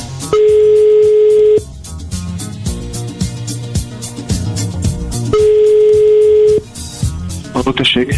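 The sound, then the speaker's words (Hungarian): A telephone ringing tone as a radio morning show calls a listener: a steady, mid-pitched tone sounds twice, each lasting just over a second, over a loud, busy music bed. “6 perc múlva lesz 10 óra, már is csörgetjük a naphallgatóját, ja már itt is van.”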